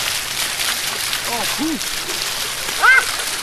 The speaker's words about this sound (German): Ja, jetzt hätte ich mich fast ertränkt im Brunnen. Ja, der ungefähr 2 Zentimeter hoch ist vom Wasserumfang her.